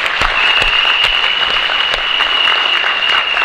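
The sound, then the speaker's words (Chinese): Audience applause at a speech event: dense, steady clapping from a crowd that fills the whole stretch, with a sustained high whistling tone running through it and no voices over the top. “给我掌声鼓励一下。”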